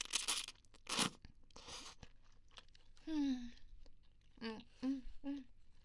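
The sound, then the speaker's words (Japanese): Crunchy chewing of food, quiet and close: several crisp bursts of crunching at the start, followed by softer mouth sounds and a few short hummed vocal tones. “どんどん食べてくよ。”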